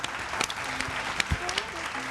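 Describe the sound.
Children applauding during a drawing class, a fairly faint, steady patter of many small hands clapping, with a voice briefly audible over it.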